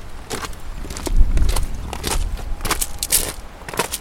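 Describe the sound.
Footsteps walking up a hill outdoors, an irregular series of moderately loud crunching steps over steady background noise.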